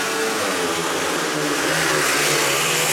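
Speedway motorcycles roaring away at the start of a heat, a dense, loud, unbroken engine drone that fills the whole stretch with no pauses.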